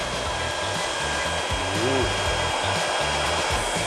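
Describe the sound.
A roughly 1,800-watt hair dryer blows steadily during hair styling, a loud, continuous whirring rush heard on its own without any talk.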